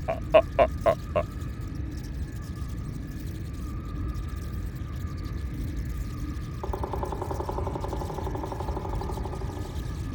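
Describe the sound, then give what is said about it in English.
Ghost-faced bat calls: four quick rhythmic pulses at the start, followed by a steady low drone that turns into a fast, rattling trill in the last few seconds. “Ooh! Ah! Oh, isn't it scary? We have a ghost-faced bat!”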